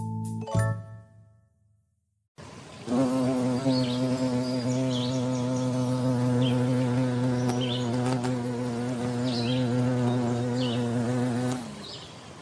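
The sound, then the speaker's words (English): A bee buzzing: a loud, steady droning hum rich in harmonics that runs unbroken for about nine seconds, following a brief low sound and a short silence, with faint high chirps above the drone. “Yes, that's the sound of me on the back of the bee.”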